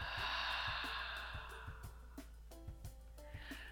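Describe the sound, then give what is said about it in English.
A gentle breath in and out, a soft airy inhale followed by a slower exhale, heard over quiet music with a steady tonal drone and light rhythmic pulses. “taking a nice gentle breath in and out.”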